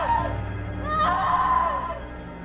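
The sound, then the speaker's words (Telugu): A woman's scream from a horror story scene, a sustained high, piercing cry that rises sharply at about the midpoint and then holds a steady pitch, heard alone without talk. “అనే అరుపు వినిపించింది”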